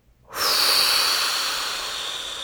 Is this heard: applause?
no